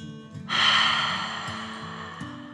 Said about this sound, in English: Let your head relax and breathe in and out.